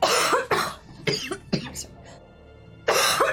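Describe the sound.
Harsh coughing from chalk dust caught in the throat: a few loud, rasping bursts in quick succession, then a quieter stretch, then one more strong cough at the end.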